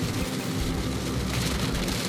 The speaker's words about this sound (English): It's raining pretty hard now. Seems like every time I'm traveling this road lately, it's pouring down rain.